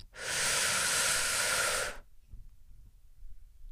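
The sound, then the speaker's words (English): A single deep, loud breath, a broad airy rush held steady for about two seconds before stopping abruptly into near silence. “I, as always, would like to take a big, motherfucking big deep breath in”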